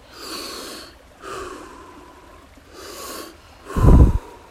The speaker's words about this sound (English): Just 10 more breaths now. Make them your deepest yet.